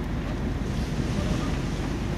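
Steady rush of sea surf on the litter-strewn Prado city beach in Marseille, a dense continuous wash mixed with wind noise, with no distinct individual wave breaks.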